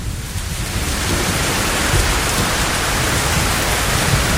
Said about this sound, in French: Bon, là, il y a de l'orage. Hop, là, il y a toujours de l'orage. On est en voiture